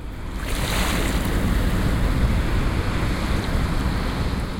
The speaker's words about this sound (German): Der Rhein in Bonn fließt einfach weiter.